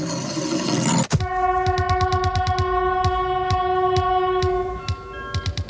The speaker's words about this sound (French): Attention, le premier TGV 607 en provenance de Paris est annoncé. TGV, très grande vitesse, TGV.